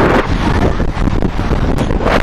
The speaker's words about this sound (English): we got some headwind, too.